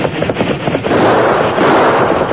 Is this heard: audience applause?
no